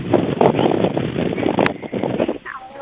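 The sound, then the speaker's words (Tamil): Strong wind blows near a hibiscus plant at a home, a loud, dense roar that buffets in uneven gusts and runs continuously from start to end. “ஒரு செடிக்கேவா காத்து இவ்வளவு வேகமா அடிக்குது?”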